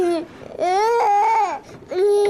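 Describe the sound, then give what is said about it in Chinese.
A young child cries and fusses in three loud, wailing bursts separated by short gasping pauses, the high-pitched cries wavering and rising in each burst. “现在孩子闹得我没法跟你说话”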